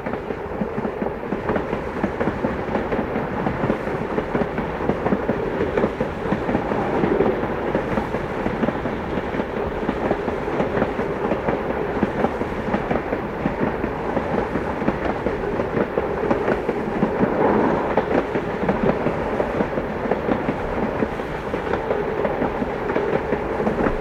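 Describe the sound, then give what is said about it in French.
A train runs on rails, bound for Lyon, with a steady, loud, continuous rumble and a faint rhythmic clatter that holds evenly throughout, with no voices. “Donc, Charles a pris le train de Lyon.”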